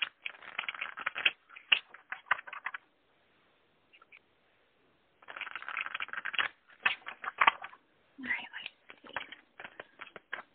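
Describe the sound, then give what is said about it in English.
Cards drawn and handled from a deck of self-care cards: several bursts of crisp, papery rustling and flicking clicks, separated by short silent pauses. “All right. Let's pull some of the self-care cards and see what we have.”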